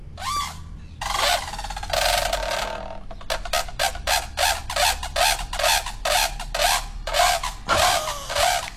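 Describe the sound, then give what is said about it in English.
Brolga trumpeting call: a long run of loud, harsh, rasping trumpet-like notes in many rapid repeated bursts, rising and pausing in an insistent rhythm. “They trumpet, they call it. Oh, really? Do you want me to play it for you? Yes. Yes, please. Here you go. Here's a trumpeting brolga for you”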